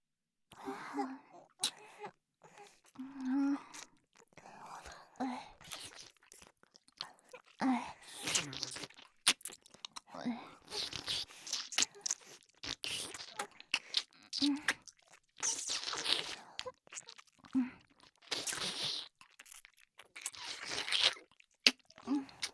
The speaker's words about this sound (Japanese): いいよ、一緒にチョコ食べよう。